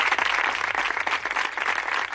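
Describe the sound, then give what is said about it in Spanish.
Applause rings out at sports training grounds as a tribute to coronavirus victims after a minute of silence, a dense, steady patter of many hands clapping at an even level. “Estas palmas que han sonado en diferentes campos de entrenamiento, de primera, de segunda, en diferentes polideportivos, en diferentes centros de alto rendimiento”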